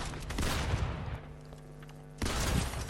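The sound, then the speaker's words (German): Rapid gunfire from a video game during a one-versus-one match, with dense bursts of shots at the start and again at the end around a quieter stretch, and no voices. “Nein, ich habe gerade geschossen, ich schwöre.”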